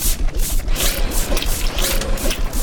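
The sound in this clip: A mechanical scooping machine works with a steady clatter of ratcheting gears, repeating in quick, even pulses for the whole stretch.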